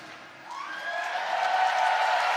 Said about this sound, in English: Well, as you can probably hear, the first semi-final is underway. Excuse the lip mic, but it's the only way to be heard over the applause.